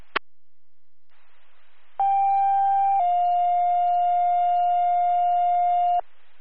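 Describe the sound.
Fire dispatch alert tones, second round: a brief click, then two sustained electronic tones in sequence. The first lasts about a second and the second is slightly lower and holds for about three seconds before stopping abruptly.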